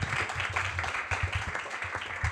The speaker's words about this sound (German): Einen großen Applaus für Paul.